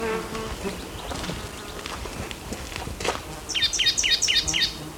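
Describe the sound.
A black-throated gray warbler sings in the background, a high, buzzy phrase of several rapidly repeated notes near the end, heard faintly over a low, steady ambient hum.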